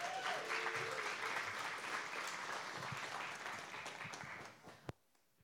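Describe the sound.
Audience applause welcomes a speaker at a Providence gathering, a dense, steady wash of clapping that holds for several seconds, then thins out and ends with a last thump.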